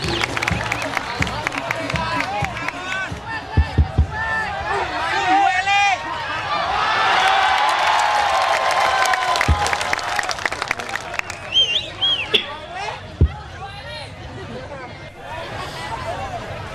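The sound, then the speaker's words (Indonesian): Audience applause mixed with loud crowd chatter at a live gathering. Bursts of clapping and a few sharp hits sit among continuous overlapping voices and shouts. “Tepuk tangan untuk wedus-wedus semua ini.”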